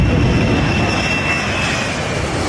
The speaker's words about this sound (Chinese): 搭载93吨货物的波音747全货机从太原五速国际机场顺利启程，飞往美国芝加哥